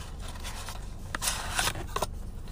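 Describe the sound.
Soft papery scrapes and rustles as a cardboard box of loose, unwrapped playing cards is opened. A few brief bursts of scraping rise over a low steady hum.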